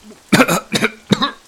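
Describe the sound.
A man coughs three times, harsh and throaty, after having his head dunked in water; the coughs come alone, with short gaps between them.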